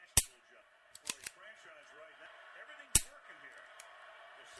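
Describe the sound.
A gun trigger clicks during dry fire practice: a few sharp, dry clicks at irregular intervals, heard over faint talk.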